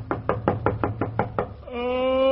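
Sharp knocks rap on a bedroom door early in the morning, several quick, even blows in a steady rhythm, followed by a sustained humming tone.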